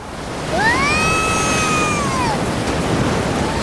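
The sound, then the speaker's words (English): An ocean wave rushes up a beach as the tide comes in and washes over a sandcastle: a steady, full rushing roar that swells early on, topped by a high, gliding whistle-like tone that rises, holds and then sinks slightly. “That wave completely destroyed your sandcastle.”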